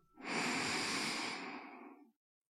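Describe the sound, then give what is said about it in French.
A single deep breath drawn in near the end of a guided relaxation session with hands held in prayer: one long, breathy rush lasting about two seconds, steady at first and then fading out, with no talking. “Prenez une dernière profonde inspiration”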